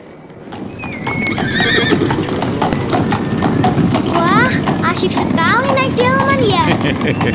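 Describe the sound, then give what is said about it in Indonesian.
A horse pulls a delman cart around town, its hooves clip-clopping steadily throughout. Several neighs and whinnies rise above the hoofbeats, and a child's voice talks over them. “Mereka berkeliling kota naik delman.”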